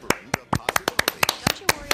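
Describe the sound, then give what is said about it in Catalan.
Sharp, separate hand claps from a small group in a radio studio, with many irregular claps spaced unevenly rather than in a continuous roll. “Bravo. I una servidora als aplaudiments.”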